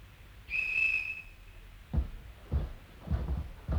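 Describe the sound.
A whistle is blown in one long, steady, high-pitched blast lasting about a second. A few dull thumps follow, spaced apart.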